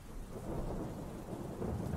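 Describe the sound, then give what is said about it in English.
Steady rain falls outside at a scrapyard while low thunder rumbles beneath it, a dense, even hiss with a deep rolling undertone that grows slightly louder toward the end. “The rain seemed to have picked up since I was last outside”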